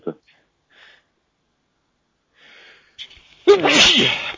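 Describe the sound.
A single loud, forceful sneeze bursts out near the end, after a few faint, brief sounds and a quiet stretch.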